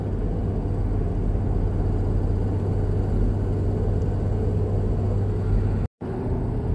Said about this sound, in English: Yeah, driving home.